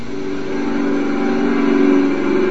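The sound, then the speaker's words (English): An electric motor keeps running on a powered rotating table wired to 110 volts, giving a loud, continuous mid-pitched hum with a steady whir and an even level throughout. “Motor still running.”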